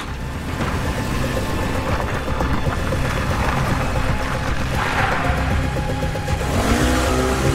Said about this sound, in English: She puts Becca in her SUV and drives away.